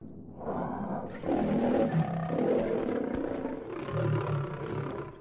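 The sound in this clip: Call of a thylacine (Tasmanian tiger): a loud, rough, roaring growl that swells and holds for several seconds, with breathy rasping texture and slight shifts in tone throughout.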